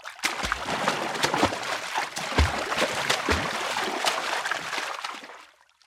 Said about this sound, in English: Look at me! I'm swimming!